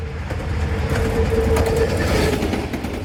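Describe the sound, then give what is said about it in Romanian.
The Connecting Europe Express passenger train arrives at a border customs station in Romania. Its wheels give a steady, loud low rumble with faint rhythmic clatter and a thin steady squealing tone throughout, with no voices. “Trenul Connecting Europe Express a ajuns în România, prima oprire în Vama din Giurgiu”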